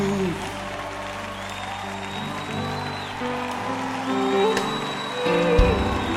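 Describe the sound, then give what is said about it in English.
A church audience claps their hands in praise, a steady ongoing patter beneath sustained tones and a voice, growing slightly louder near the end. “Come on, clap your hands. It's good to clap your hands, O Lord. Come on, clap your hands, O Lord.”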